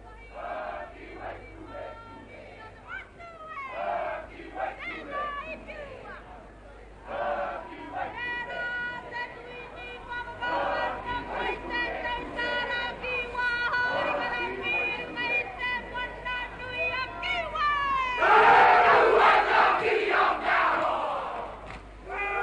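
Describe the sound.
Māori haka warriors chant and shout alongside a crowd at a royal welcome for Queen Elizabeth II on a marae. Massed voices ring out continuously, swelling louder near the end.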